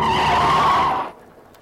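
Tyres screech loudly as a speeding car brakes hard on its way out of a village. The harsh skid holds steady for about a second, then drops away into a faint tail.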